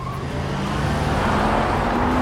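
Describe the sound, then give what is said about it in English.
A Range Rover driving through opening gates, its engine giving a steady low rumble with a faint whine that grows slightly louder across the short clip. “The gates open and the Range Rover drives after them.”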